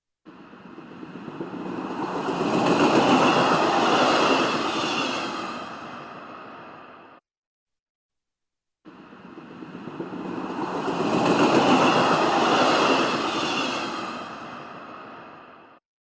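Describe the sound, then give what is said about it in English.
A passing train's broad rumbling roar swells gradually to a peak and then slowly fades, heard twice in a row with a short silence between. “The sound you just heard was a recording of a passing train.”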